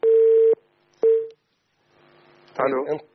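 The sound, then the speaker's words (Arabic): A telephone call connects on the line: two steady electronic beeps, the first longer than the second, are followed by a quiet pause and then a voice answering. “طيب معي اتصال”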